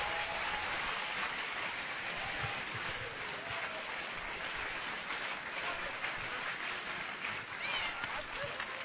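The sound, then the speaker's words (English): A church audience applauds to welcome a bishop, a dense, even wash of clapping that holds steady for the whole stretch without a break. “Let's put our hands together and welcome Bishop.”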